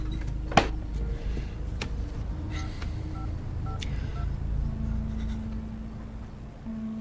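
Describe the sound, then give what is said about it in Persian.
Telephone keypad tones as a number is dialed to make a call: a few short, clean beeps at steady pitches, separated by brief gaps over faint background noise, with a sharp click near the start. “باشه، زنگ بزن، زود باش، زنگ بزن.”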